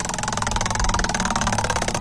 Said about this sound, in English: Let's spin the wheel, see if we can match you with $520 free money. Let's go.